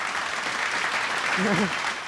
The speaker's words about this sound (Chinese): 来哈，到各位这过来拍手哈